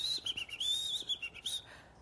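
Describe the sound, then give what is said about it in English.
Whistled bird song, a high, warbling whistle that wavers and slides in several short phrases, heard alone and fading out at the end. “bird song came out of his mouth.”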